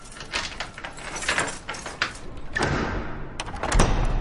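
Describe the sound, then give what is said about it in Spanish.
An old house's front door is unlocked and opened: faint metallic rustling and clicks as a key works the lock, then a swelling scrape and a low thud as the door swings open. “Se detiene bajo el soportal frente a la puerta, deja su maleta en el suelo y busca en su bolsillo. Abre.”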